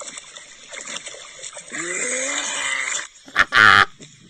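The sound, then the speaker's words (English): A dog gagging and clearing its throat in a lake. A hoarse, rasping, throaty retch builds into a drawn-out groaning strain, then gives way to a sudden short, loud burst near the end. “What is it doing? I don't like it. It's clearing its throat. A lot of dogs do it.”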